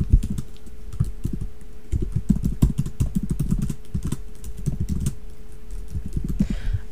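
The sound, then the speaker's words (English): Fast typing on a computer keyboard: many quick, irregular keystrokes clatter steadily for the whole stretch, loud and clear with no talk over them. “Kanye West, hold on, I have to type this so I can...”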